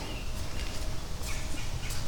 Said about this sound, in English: Birds.